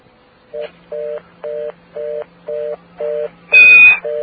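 Touch-tone pound key pressed on an AT&T calling-card phone line: six evenly spaced low tone pulses, then a louder, brighter key tone, after which the pulsing starts again.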